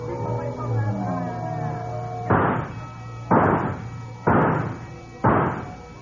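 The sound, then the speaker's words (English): Rifle shots ring out at a fairground shooting gallery: four sharp, evenly spaced cracks, about one second apart. Each is loud and short, following a few seconds of softer background sound. “Hey, that's pretty good shooting.”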